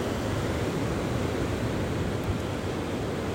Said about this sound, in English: So as you sit and you lie and you listen to the waves,